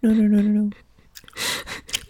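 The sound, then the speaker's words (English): Gum is chewed with wet, sticky smacks and clicks, following a brief spoken word. The chewing comes in irregular bursts. “Now, just imagine I'm the Light Fury and I'm eating this gum.”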